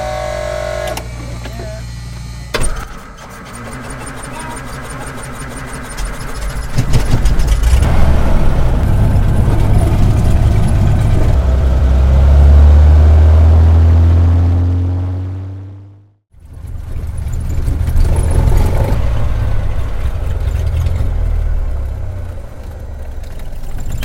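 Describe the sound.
A small propeller aircraft engine starts and runs before a flight to a remote cattle station. It is a loud, rough drone whose tone climbs as it builds, dips sharply for a moment, then carries on running steadily.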